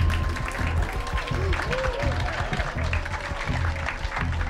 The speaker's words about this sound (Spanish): Otro aplauso para Sam Morril